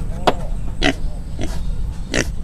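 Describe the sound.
A pig, kept behind a village house alongside chickens, grunts four times, each a short, rough snort spaced evenly apart over a steady low background.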